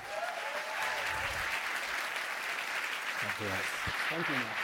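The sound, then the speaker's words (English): An audience at a Berlin conference applauds as a speaker is welcomed on stage. Steady, dense clapping runs throughout, and a man's voice begins speaking over it near the end. “Would you please make Mr. Jeremy Keith feel very welcome on stage?”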